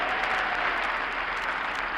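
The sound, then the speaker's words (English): Applause from an audience at a celebration of the Marines' birthday: a dense, even patter of many hands clapping that holds steady for the whole stretch, with no single voice standing out. “Applause me, man. Applause me. Applause you. Applause you.”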